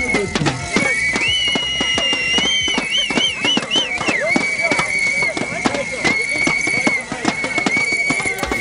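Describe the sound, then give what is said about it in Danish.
Loud demonstration by Volkswagen workers in Germany: shrill, warbling whistles and a dense, rapid clatter of noisemakers sound continuously over a crowd's voices. “Ja, for det her, det er lyden af demonstrationer, som fandt sted i Tyskland i går blandt de ansatte i den tyske bilgigant Volkswagen”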